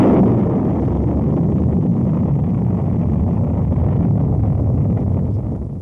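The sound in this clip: A rocket launch roars after a countdown as a U.S. satellite heads to orbit: a steady, loud, low rumbling blast that holds for about six seconds and eases slightly at the end.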